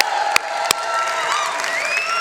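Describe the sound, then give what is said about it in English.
A church audience at a morning service applauds and cheers in a steady, dense wash of clapping, with a couple of sharp claps early and whoops rising above the crowd later. “But can we do a little hooping and hollering for Jesus this morning? Can we put our hands together?”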